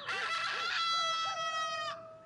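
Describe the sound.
A rooster crows once, loudly and alone: a bright, harmonic call held steady for nearly two seconds before cutting off.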